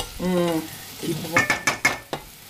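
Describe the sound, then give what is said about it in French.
Butter melting and sizzling in a pan gives a faint, steady hiss, with a brief voice at the start and then a few sharp clinks of a utensil stirring against the pan. “On entend un petit peu. Ah. Là, il y a le beurre qui fond, là.”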